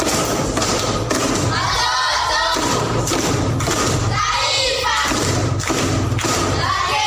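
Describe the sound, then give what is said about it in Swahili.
Rhythmic unison clapping from the audience at a primary-school quiz session, heavy thudding beats landing roughly twice a second in a steady pulse, with crowd voices mixed underneath. “Makofi kwa anko.”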